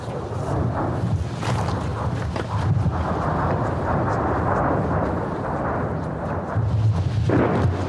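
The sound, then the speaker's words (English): Artillery shells and rockets exploding along a war front in eastern Ukraine, heard as a dense, continuous low roar with no clearly separate blasts and no voices. “The volleys of shells and rockets crash back and forth.”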